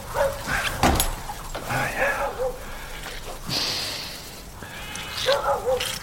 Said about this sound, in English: Good dog.